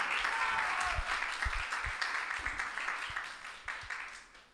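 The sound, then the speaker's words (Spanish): A church audience applauds during a sermon with a sustained burst of clapping. A few heavier low claps stand out, and the applause slowly thins and fades toward the end. “Apláudele a Cristo, que Él vive.”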